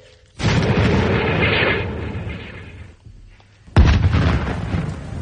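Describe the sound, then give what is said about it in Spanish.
Artillery cannon fire aimed at a Martian machine in a dramatized battle scene: two heavy booms a few seconds apart, each with a long, rolling rumble that slowly fades. “Corregir 128 metros a la derecha. Desviación 31 metros. 31 metros, listo. Proyección 37 grados, carguen. 37 grados, listo, señor. ¡Fuego!”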